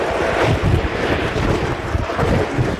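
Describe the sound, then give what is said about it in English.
Loud, continuous wind roars and buffets the microphone as a small homemade roller coaster rushes down a hill amid cornfields. The rumbling whoosh is steady and unbroken throughout. “whoosh, you're down the hill. And the ride's over in 5 seconds.”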